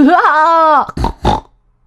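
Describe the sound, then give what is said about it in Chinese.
A voice imitates a pig squealing happily. A long, loud squeal wavers in pitch, then two short grunting snorts follow, and nothing else is heard. “小猪高兴地大叫。”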